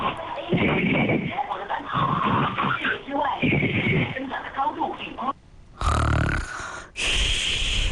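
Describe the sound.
A sleeping person snores in a phone voice message: rough, rumbling breaths repeat in a slow rhythm, thin and band-limited, ending with two brighter, harsher bursts.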